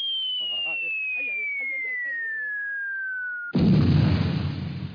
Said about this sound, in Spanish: ¿Y eso qué es? Cuidado con las bombas.